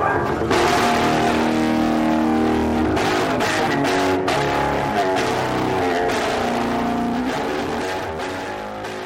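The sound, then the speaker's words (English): Lemmy's distinctive bass guitar playing: a thick, heavily distorted, chord-like roar with dense overtones, loud and continuous, thinning slightly as it fades near the end. No one speaks. “Well, the basic difference is that most bass players sound like this. Whereas I sound quite different.”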